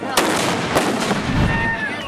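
Explosive charges set off by hammer strikes at an improvised celebration for a local patron saint. A few sharp, cracking bangs stand out from a dense, continuous roar of noise.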